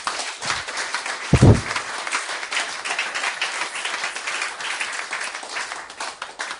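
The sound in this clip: An audience applauds during a French-language church service. Dense, steady clapping runs throughout at an even level, with one heavy low thump early on.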